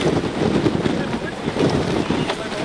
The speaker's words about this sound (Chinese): 我现在是在浙江台州玉环市，大概就在20多分钟之前，台风白海豚就在我所在的玉环市登陆。